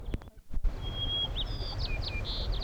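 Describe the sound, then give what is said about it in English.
A white-crowned sparrow sings a clear, sustained high whistle, then a quick series of shorter slurred notes and buzzy phrases over a low background rumble. A few sharp clicks and thumps come just before the song. “White crowned sparrow”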